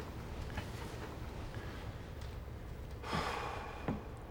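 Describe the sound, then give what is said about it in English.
A deep breath taken in an office before a hushed attempt: a soft, airy inhale swelling for about half a second, followed by a brief breathy puff, faint over quiet background noise. “The deep breath.”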